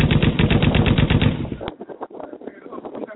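Rapid automatic AK rifle fire from a video game: a dense, loud burst of many shots in fast succession for about the first half, then the firing stops and quieter, irregular sounds follow.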